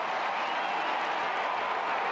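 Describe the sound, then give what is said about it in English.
Stadium crowd applauding a Geelong Cats player during an Australian rules football match, a continuous dense roar of clapping and crowd noise that holds steady and loud throughout. “Big applause for Jezza. Yeah, they love him.”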